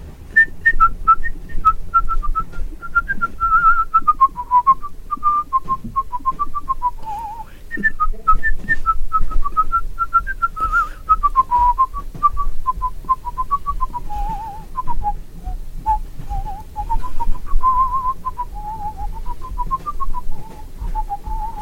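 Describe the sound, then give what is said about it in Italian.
A person whistles a wavering tune in a clear, fairly high tone, phrase after phrase with brief breaks, over a steady low rumble throughout. “Scendo grazie, felice, accompagnato dal tuo fischio.”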